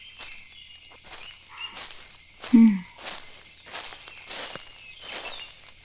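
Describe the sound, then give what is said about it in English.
Footsteps walking outdoors on a hot, sunny afternoon with an occasional breeze: a few soft, unevenly spaced steps over faint background noise. “Why don't we get started on our walk together?”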